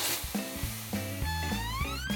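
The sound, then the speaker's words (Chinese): Beef frying in a hot wok over high heat gives a steady, loud sizzle and hiss, with pitched tones sounding alongside it throughout. “啊，先下牛肉， 一定要先下牛，因为这个一下去就糊了。 哦，我知道，大火， 对， 大火，”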